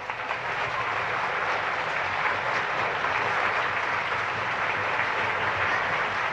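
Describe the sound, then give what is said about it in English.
An audience applauds a bandleader's orchestra at a live show. The clapping is dense and steady, holds at an even loudness throughout, and has no talk over it. “How about a nice hand right across the mouth for the greatest organization in the band in the world? Ah, nuts. Anthony Morelli and his fine orchestra, Anthony Morelli.”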